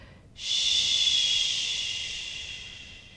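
A single long "shh" exhalation during a guided breathing exercise, a soft breathy hiss that starts abruptly and fades slowly over about three seconds.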